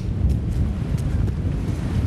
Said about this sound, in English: Oh, I should have brought my gloves, shouldn't I? I've got my gloves. The wind's picked up.